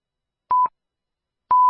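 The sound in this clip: Radio time signal beeps marking six o'clock: a short, clean electronic pip, then after a pause a second, longer tone at the same steady pitch, loud and alone.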